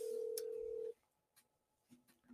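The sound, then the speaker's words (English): A telephone dial tone sounds as a steady, clear tone for about a second when a phone call is being placed. It cuts off and leaves quiet with a few faint clicks. “If you guys can bear with me, I just need to make a quick phone call.”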